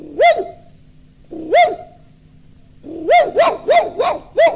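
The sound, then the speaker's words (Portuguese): A little dog barks loudly in a children's story recording. It gives two separate barks, then a quick run of five, each bark arching up and down in pitch. “E o cachorrinho chegou, latiu, latiu.”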